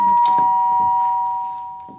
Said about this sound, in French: On sonne. Ouais. On ressonne.